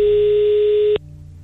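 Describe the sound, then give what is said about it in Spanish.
A single steady telephone ring tone for an outgoing call sounds for about one second, then cuts off into quiet line hiss. “Ahí estamos marcándole. Listo.”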